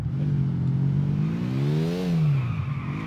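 Motorcycle engine revving in the video game GTA IV, a buzzing engine note whose pitch climbs steadily for about two seconds and then drops back down.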